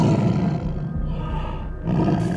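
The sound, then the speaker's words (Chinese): A tiger roars as it pounces on a fox, a deep, rumbling roar that sounds throughout, dips briefly in the middle and swells again near the end. “这时一只狐狸刚好昏昏沉沉地走了过来，老虎一看见便猛扑了上去。”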